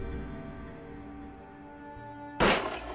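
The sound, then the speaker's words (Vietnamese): A single sharp gunshot sound effect cracks out in a dramatized story after a few seconds of faint, steady tones, then leaves a brief ringing tail. “Dứt câu, hắn nổ súng, một viên đạn bắn thẳng vào cánh tay của Bác Toàn.”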